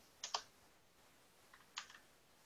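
A few faint keystrokes on a computer keyboard come in two short bursts separated by a pause, with no talking.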